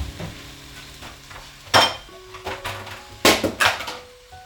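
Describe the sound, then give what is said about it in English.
A big tempered-glass bowl being taken out in a home kitchen while making corned beef hash gives a few sharp clattering knocks over a low steady hum, with quieter clinks in between. “Okay, so what I'm gonna do is I'm gonna get a bowl. Like a big bowl.”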